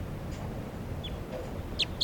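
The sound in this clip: Two sharp, high chirps from a pale female crossbill up in a treetop, each very brief and landing close together near the end over a low background hiss.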